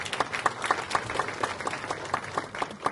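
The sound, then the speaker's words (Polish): Loud audience applause at a church gathering honouring parish priests: many hands clapping with distinct, fairly regular individual claps standing out within a steady, dense wash. “Duże brawa.”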